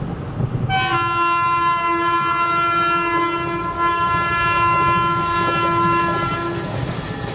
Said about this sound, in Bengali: train সঠিক সময়ে new Delhi station থেকে রওনা দিল